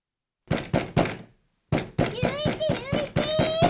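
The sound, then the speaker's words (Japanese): Knocking on a door: three quick, hollow thuds, a short silence, then a longer, louder run of knocks. “なんだよ、叩くか呼ぶかどっちかにしろ。うるさいだろ。”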